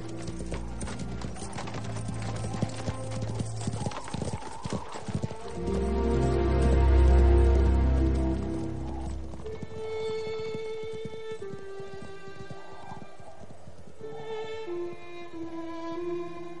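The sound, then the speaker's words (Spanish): Horse hooves clip-clop as riders leave on horseback across a deserted mine in a 2007 historical drama. The hoofbeats form a long run of quick, fairly loud strikes, and a deep low rumble swells midway before fading. “se aleja sobre un caballo junto a Jay y Carlos”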